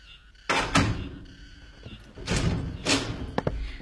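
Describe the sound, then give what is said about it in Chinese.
A door being opened at a home for a visitor: a few heavy wooden thumps and rattles, then a couple of sharp latch-like clicks near the end, fairly loud with no voices. “我给你开门啊”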